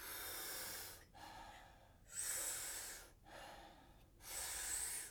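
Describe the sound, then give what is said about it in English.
Powerful rhythmic breathing drawn in through the mouth during a group breathing exercise. Three strong, rushing inhalations alternate with two softer, relaxed exhales in a steady cycle, with no talk. “taking about 40 powerful breaths into the body through the mouth. And the exhale is a nice, soft, relaxing exhale. We do it rhythmically, we do it together, and it sounds like this.”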